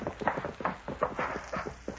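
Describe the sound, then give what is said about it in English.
Hoofbeats of a horse ridden hard and approaching fast, a rapid, uneven drumming of many thudding beats at a steady moderate level throughout. “He's coming in riding hard.”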